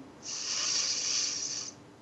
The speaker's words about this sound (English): I invite us all to join together as one conscious global heart as we take a deep breath in